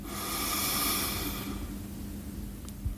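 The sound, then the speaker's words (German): A deep breath drawn in during a guided relaxation exercise: a broad, airy hiss that swells loudly over about a second and a half, then fades to a faint hush. “Und dann nimm nochmal einen schönen Atemzug. Atme tief ein”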